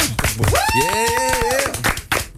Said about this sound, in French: on applaudit tout ce petit monde bien fort